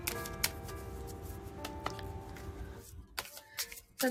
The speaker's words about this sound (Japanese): カード出します